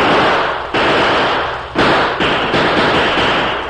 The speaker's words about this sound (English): After an exchange of shots, there was silence.